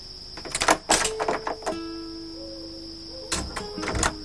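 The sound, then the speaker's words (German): A heavy jail door being shut and bolted: clattering knocks and scrapes, then a drawn, creaking tone held for a second or so, then another burst of metallic clatter. “Señor Zorro und seine 4 Begleiter schlüpften hinein und verriegelten die Tür wieder hinter sich”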